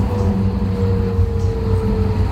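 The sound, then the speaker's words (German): Inside a tram's driver's cab, a steady low rumble with a constant mechanical hum runs on evenly without pause. “Wir sind hier jetzt in einer Straßenbahn vorne in der Fahrerkabine angekommen und hier sind sehr viele Knöpfe.”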